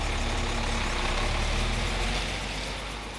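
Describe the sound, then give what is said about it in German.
Forklifts and trucks drive around a sawmill, their engines making a steady low rumble that eases slightly toward the end, with no talk. “wo täglich hunderte Kubikmeter von Holz bewegt werden, Gabelstapler und LKWs fahren”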